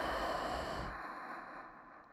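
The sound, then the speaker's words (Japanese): A deep inhale during a calm relaxation exercise, a soft airy rush lasting about a second that then trails away to near quiet. “気持ちいいからずっとこうしていたいね。息を吸って”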